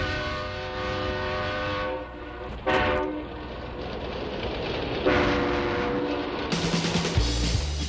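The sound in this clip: A train departing a station sounds its horn in long, sustained chords over a steady rolling rumble of the rail cars. The horn cuts out briefly and returns, with no voices.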